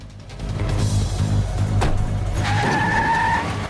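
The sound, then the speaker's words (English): Car engine revving loudly as it pulls away, followed by a long, high squeal of tyres in the second half, all at full volume without voices. “Bulldog drives away.”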